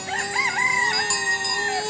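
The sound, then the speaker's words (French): A rooster crows in the Bahamas, giving one long sustained call with a wavering start that settles into a level, drawn-out tone before tailing off. The crow is fairly loud and heard alone. “Et avec le coq qui chante aux Bahamas, ça donne quoi ?”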